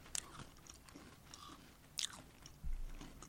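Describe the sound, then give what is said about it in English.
Faint crunching and chewing as someone eats a sandwich cookie with fruit-flavored cream filling, with a few sharper bites standing out over a soft, steady munching. “I'm going to take one with just the filling because I ate the whole cookie. I'm going to eat the whole cookie.”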